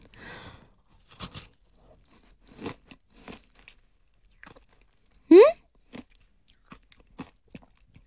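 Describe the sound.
Crisp bites and crunchy chewing on an apple, a few scattered crunches with one especially loud, sharp crunch partway through, set against near silence.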